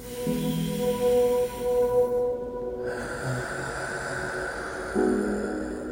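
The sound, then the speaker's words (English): Deep breathing into the diaphragm, a long airy breath that swells partway through over steady sustained ambient tones, with no talk. “Our goal here is to breathe and take deep breaths into the diaphragm, like this.”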